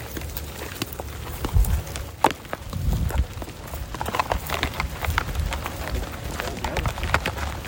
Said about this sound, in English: So right now we can stroll on out to the field. I just warn you, it is an active farm, so there will be irrigation pipes. Parts of the ground are a little uneven, so just please watch your steps. Come on through.